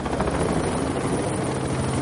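A helicopter flies during a staged Carabinieri police raid, its loud, steady rotor chop and engine drone filling the whole clip without a break.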